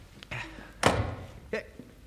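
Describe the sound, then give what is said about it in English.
A back kitchen door closing with one heavy, solid thunk, accompanied by a couple of lighter knocks just before and after. “James, that was your back kitchen door, wasn't it?”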